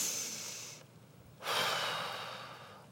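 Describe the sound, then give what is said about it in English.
Deep breathing with a blown-out exhale: a long airy breath, a brief pause, then a louder, forceful hissing blow that slowly fades, with no voices. “I want you to take 3 deep breaths like this. Blow it out.”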